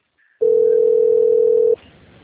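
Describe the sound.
A telephone ringback tone as a call rings through: one loud, steady, single-pitched tone lasting over a second, which cuts off to a faint line hiss.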